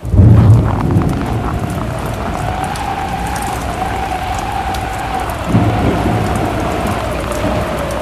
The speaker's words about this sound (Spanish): Incluso, la lluvia les jugó una mala pasada.